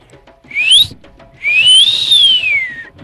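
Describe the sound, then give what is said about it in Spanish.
A person whistling by blowing air between the lips makes two clear notes: a short one that rises, then a longer one that climbs and slowly falls away. “si vos soplas aire entre los labios, estos vibran y tú silbas.”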